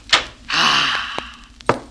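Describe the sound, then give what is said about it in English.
A door is shut and locked. A sharp thud comes first, then a longer scraping stretch, a small click, and a final hard knock. “I hurried into my room and shut the door. And locked it. And chained it. And bolted it.”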